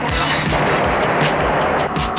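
Gunfire returned at attackers: a loud, dense barrage of shots that blurs into a steady roar, with sharper bursts punching through at intervals.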